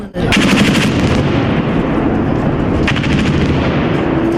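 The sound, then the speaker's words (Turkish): Heavy gunfire from weapons mounted on helicopters, raking a police headquarters during a coup attempt: dense, rapid, continuous fire that stays loud throughout, with a few sharper bursts standing out and no voices. “Darbeci hainler ağır silahlar yükledikleri helikopterlerle emniyeti ateş yağmuruna tuttular.”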